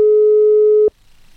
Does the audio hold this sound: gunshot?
no